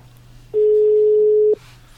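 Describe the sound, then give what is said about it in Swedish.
A telephone tone sounds while calling someone. It is a single steady, mid-pitched beep that lasts about one second, loud and clean over a faint low hum, with quiet before and after. “Vi tar och ringer Martin Wenberg för att se om man har någon jävla lista här.”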